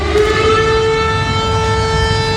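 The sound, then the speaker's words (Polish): An air raid alarm siren sounds a loud, steady, harmonic-rich wail that holds one pitch throughout, alone over a low background rumble. “Syreny alarmowe zaskoczyły mieszkańców Lublina i Rzeszowa.”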